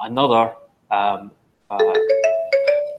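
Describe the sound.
A phone ringtone plays a short melodic run of bright electronic tones that step upward, coming after a brief voice-like sound at the start.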